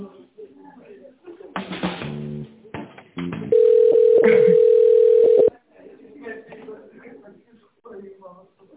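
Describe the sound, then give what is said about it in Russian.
A steady telephone line tone sounds while a business call is being transferred to a colleague. It is a single continuous tone lasting about two seconds, with people talking before and after it. “Вас соединить с Полиной?”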